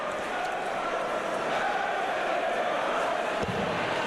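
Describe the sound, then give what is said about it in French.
Darts crowd at the Winter Gardens in Blackpool, in the Empress Ballroom, with Gerwyn Price's supporters singing chants between sets: a steady, dense wash of many voices that holds at an even loudness throughout. “Et le public qui entonne quelques chants, on les entend. Quelques supporters du Iceman, de Garwin Price”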